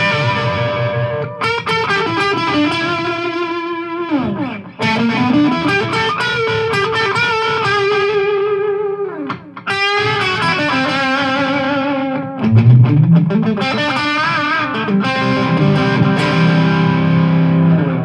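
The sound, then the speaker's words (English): An electric guitar played through effects pedals gives a big, stadium-style sound. Loud, heavily distorted sustained chords ring with thick effects and shifting notes in several sections separated by brief breaks, with no talking. “So you get more of like this stadium kind of sound, the kind of bigger sounding guitar, so it's really cool for that.”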